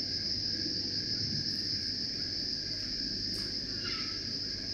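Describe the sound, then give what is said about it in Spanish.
Crickets and other insects stridulating: a continuous, high, steady trill with a dense chirping texture underneath, alone and fairly faint, without voices. “No todos los insectos estridulan al mismo tiempo. En esto se parecen mucho a las ranas y a los sapos, que no tienen eso de que no se amontonan. Fíjense que van como compasados.”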